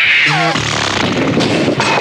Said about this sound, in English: He's got a double bean burrito methane gas bomb! And he's aiming it this way! Run away!